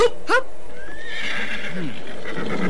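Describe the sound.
A horse neighs with a short, high, wavering whinny near the start, then quieter movement and faint rustling follow. The horse is being mounted for departure.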